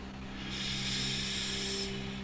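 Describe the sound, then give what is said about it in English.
A deep inhale during a guided stress-release meditation, a single long, airy rush of breath lasting over a second, steady and fairly loud over a constant low hum. “So we'll inhale here,”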